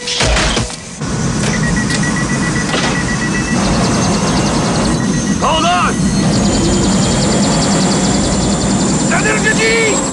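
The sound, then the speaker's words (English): A loud, continuous engine and rotor roar rises from a helicopter gunship in a film scene, with a voice speaking over the steady din and faint high whines flickering through. “An Afghan climbs into the cockpit. Zeisson finds the bodies in the interrogation room.”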